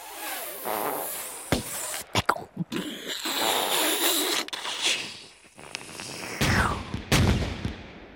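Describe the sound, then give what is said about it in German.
A gunfire salvo erupts from the undergrowth in a war newsreel, with several sharp, loud reports in irregular bursts and rough rumbling noise between the cracks. “Zur selben Zeit, fast sofort, dröhnt eine Salve aus dem Unterholz.”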